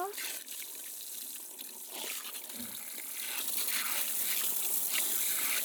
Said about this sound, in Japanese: そろそろお湯で流しますよ。